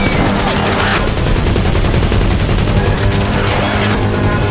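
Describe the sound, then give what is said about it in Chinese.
Heavy machine gun fire from an audio drama battle scene against attacking monsters: continuous, loud, dense bursts of rapid shots that run unbroken through the whole stretch. “劳拉也端起了自己的重机枪，”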